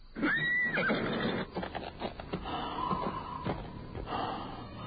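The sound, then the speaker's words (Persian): A horse gives a high, quavering whinny at the start, then snorts and breathes roughly; the sounds are fairly quiet, with no voices. “شبلی بر اسب می نشیند و می تازد به سوی کوفه.”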